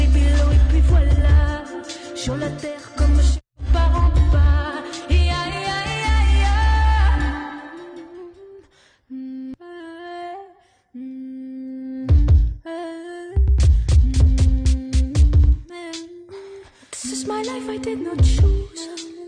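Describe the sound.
A woman sings a slow solo cover of a hip-hop song, performed live from her home, over sustained chords and deep bass, with the phrases broken by short pauses.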